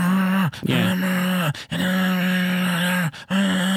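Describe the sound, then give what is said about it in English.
A voice imitates muffled talk heard through a bedroom wall, droning in long, steady hums that carry the tone of speech without words, broken by a few brief pauses. “Little ears are listening, and they're listening through walls. Yeah. I'm going to try to do this. Like, you may be talking in your bedroom, and it sounds like this to you and your wife, like just like you're hearing my voice. But it may be in their bedroom, and they're not hearing what you're saying, but they're hearing this.”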